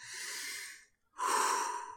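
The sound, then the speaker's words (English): Two long, deep breaths for a guided relaxation exercise, slow and airy, separated by a brief pause, with no talk. “First, just take a few deep breaths.”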